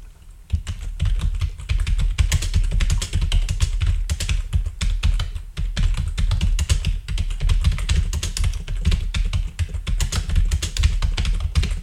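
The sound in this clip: Rapid typing on a computer keyboard as a prompt is entered, a dense, continuous stream of clicking keystrokes that starts after a brief pause and runs steadily to the end.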